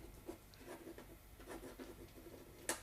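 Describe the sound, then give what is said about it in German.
Pen scratching on paper as someone writes, a faint run of short, uneven strokes with a slightly sharper scratch near the end. “Du Ungeheuerster. Ich glaub, du schreibst.”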